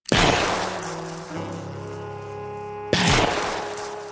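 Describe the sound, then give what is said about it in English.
Two gunshots from a gun fired point-blank in a tabletop role-playing game scene, each a sharp, loud blast with a decaying tail, about three seconds apart over a sustained tone. “You fire directly into your father's chest.”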